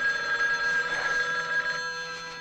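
A telephone rings steadily, an unbroken electronic bell tone with bright, sustained harmonics that holds at even loudness for the whole stretch, with no voices.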